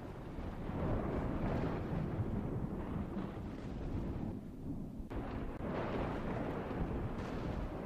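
Thunder and howling wind as the weather turns to rain. A steady, low, continuous rumble of moderate loudness runs throughout, with a brief dip midway.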